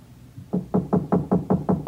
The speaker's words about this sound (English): But nobody answered my knock.